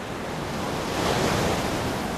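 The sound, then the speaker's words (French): Sea waves on the seafront a few dozen metres from the Gabonese presidency: a steady, loud, broad surf roar that swells slightly in the middle. “Sur le bord de mer, à quelques dizaines de mètres de la présidence gabonaise”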